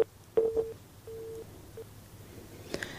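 Electronic telephone tones on a faulty phone line while trying to reach a caller: a few short, quiet beeps, then a longer steady tone, then a brief click near the end.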